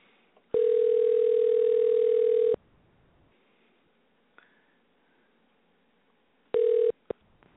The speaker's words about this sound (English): We dialed up our guest right now.